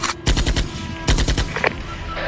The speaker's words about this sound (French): ça commence à tirer. Putain c'est la première fois que je me fais tirer dessus.